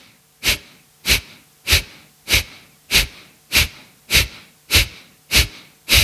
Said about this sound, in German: Dann atmest du durch die Nase in die Atemmittellage. Und dann atmest du stoßweise aus.